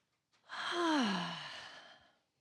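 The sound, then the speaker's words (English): A deep breath taken together by a group, heard as one full sighing exhale with a voiced tone that falls in pitch, swelling quickly and fading out over about two seconds. “We all just take a deep breath.”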